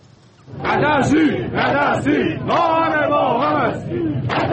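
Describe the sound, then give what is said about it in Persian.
A large crowd chants in unison at anti-government protests in Iran: many voices shout loud, rhythmic, repeated phrases right after a brief quiet opening, with the chanting continuing to the end. “این صدای اعتراضات ضد حکومتی در ایران است.”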